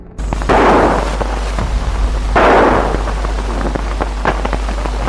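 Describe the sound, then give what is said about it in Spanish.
Gunshots from a .45 pistol fired by a police officer during street clashes with protesters: a few sharp, loud reports and bursts over a constant hiss and crackle, with no voices. “Observamos a un policía que tira con una pistola 45.”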